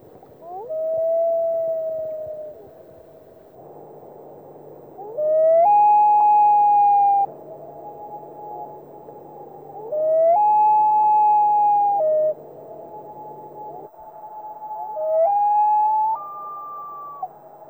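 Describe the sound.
Common loon wailing calls of types 1, 2 and 3, played one after another: four long, mournful, sliding wails separated by pauses. The later calls step up to higher notes, over a steady low hum.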